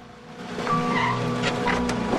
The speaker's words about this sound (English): She gets into her car.